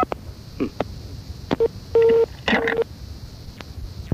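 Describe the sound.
A telephone number is dialed as a few touch-tone beeps of uneven length, one held noticeably longer than the others, over a faint hiss with soft clicks between tones.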